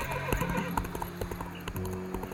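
Horse hooves clip-clop in a quick run of many beats while the mare neighs loudly, a sharp whinny rising over the hoof strikes.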